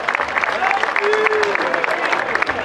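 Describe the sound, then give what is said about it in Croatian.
Audience applause greeting the cavalry riders and standard-bearer at a horseback procession event: a short burst of steady clapping from many hands that holds at an even level throughout. “Pozdravimo ih jednim aplauzom.”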